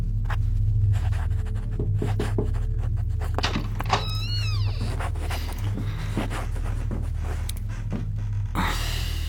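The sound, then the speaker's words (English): Someone writing with a pen on paper, a series of short scratchy strokes in uneven rhythm, faint and alone without talk. “What's that you're writing? Your last will and testament?”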